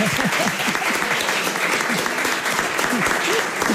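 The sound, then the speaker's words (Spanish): An audience applauding on a family television program, with sustained, dense clapping and voices calling out over it. “Pero sí ese aplauso y el agradecimiento.”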